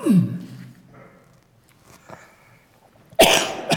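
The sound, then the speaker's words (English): A person coughs twice. There is a short burst at the start, then a quiet gap, and then a louder, harsher cough near the end. “So, sorry, cough.”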